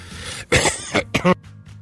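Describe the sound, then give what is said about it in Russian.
A man coughs during a radio talk about stress, letting out a few harsh, throaty coughs in quick succession, mixed with throat clearing, with no speech around them. “Простите, закашлялся. Но это не от стресса.”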